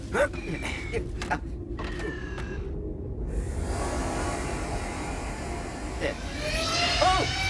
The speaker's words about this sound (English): Master Luke, if I might suggest, I could take the controls, leaving you free to scan the terrain for tracks. Piloting ground effect vehicles like your land speeder is one of my secondary functions.